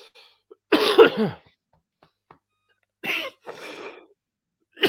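A person with beef stuck in the throat coughs and clears it: one long, harsh, rasping burst, then after a silence two shorter throat-clearing rasps, with a faint click at the end.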